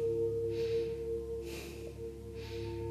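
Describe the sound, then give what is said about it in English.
Breath of fire, done as sharp, forceful breaths out through the nose, gives three evenly spaced breathy bursts about a second apart over a steady low hum, with no talking. “And then a sharp breath out through your nose. That inhale will be automatic, and then out through your nose. So start your breath of fire.”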